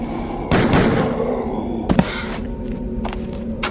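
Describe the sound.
A double-barrel shotgun blast bursts out as a loud, broad boom with a decaying tail. Two sharp, closely spaced cracks follow, then a few fainter knocks.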